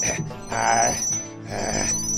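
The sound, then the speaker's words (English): An incoming call rings on a ship's auxiliary comms system, a thin, steady high electronic tone running continuously beneath people talking. “The aux comms? Wait, are we getting a call? Oh, shit, I think we are.”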